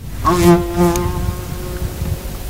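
Insect buzzing as it flies off after release from a hand, a steady mid-pitched drone with a rich overtone series that starts abruptly and fades over about two seconds.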